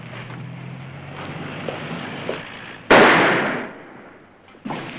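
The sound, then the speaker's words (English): Gunshots ring out: one loud, sharp blast with a long decaying tail, then a second, weaker report near the end, over a low background murmur. “The shots came from over there.”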